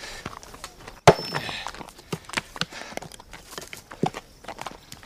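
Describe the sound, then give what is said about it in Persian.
Hooves of a horse carrying a rider, approaching through a wooded grove: one sharp thud near the start, then many irregular clopping steps at a moderate, steady loudness. “خدیجه سوار بر اسب به سمت سیاوش میاد.”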